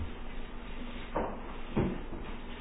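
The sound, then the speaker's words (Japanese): Pages of a Bible being opened and turned, heard as two soft papery rustles about half a second apart over a faint, steady background hum. “マタイの福音書の1章、開けやすいところですから、ちょっと開けてみましょう。”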